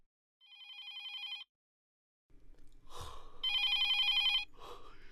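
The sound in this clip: A telephone rings late at night in two bursts of high, trilling electronic tones. Brief rustling and a gasp come between the rings.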